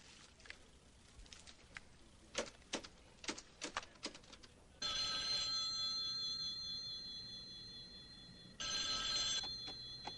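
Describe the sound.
A telephone rings on an outgoing call. A few sharp, scattered clicks come first, then two loud, bright rings. The first ring is long and steady, and the second is cut short.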